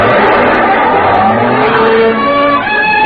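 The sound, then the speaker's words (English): A car takes a corner fast on two wheels with a loud, sustained screech of tires whose squealing tones waver and bend, filling the whole moment without any talk over it. “I turned the corner on two wheels.”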